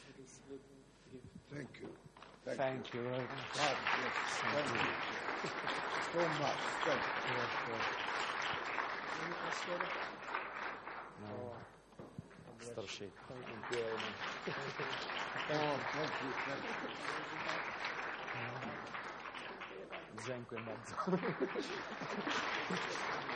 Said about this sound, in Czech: Takže i váš potlesk je takový dík